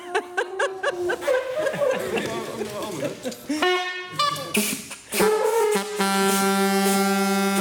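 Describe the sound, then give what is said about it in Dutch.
A homemade horn is tested with a few loud, buzzing toots. The blasts come after a stretch of lively chatter and laughter, and the last one is long and steady. “Bijvoorbeeld die hoorn, die komt er ook nog bij. Ja, dus die wordt nu getest.”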